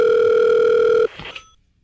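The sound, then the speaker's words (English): A telephone gives a steady, loud dial tone for about a second while a 1-900 number is about to be dialed. The tone then cuts off, followed by a few faint, brief tones and clicks. “Hang on, let me dial. Hold on. 1-900 warrant.”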